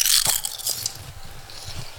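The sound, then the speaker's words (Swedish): Crunchy biting into a small taste sample of oven-cooked food: a crisp burst at the start, then quieter intermittent crunching. “Så, Vänder runt lite på de här. Alltså man kan ju faktiskt ta ett litet smakprov tänker jag.”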